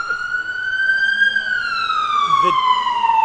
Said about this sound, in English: I think it's probably appropriate with the ambulance going by.